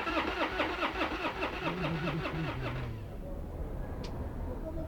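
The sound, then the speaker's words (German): A car engine starting before pulling away, heard on a drive through a Lisbon street: rhythmic, pulsing churn for about three seconds, then a steadier, smoother engine rumble. “Aber zuerst einmal fahren wir über die Rua do Alecrim.”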